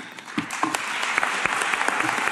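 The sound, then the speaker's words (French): Steady, moderate applause at a plenary session of the COP26 climate conference in Glasgow, a thin, less enthusiastic round of clapping that holds at an even level for the whole stretch with scattered sharper claps. “Applaudissements nettement moins nourris, oui.”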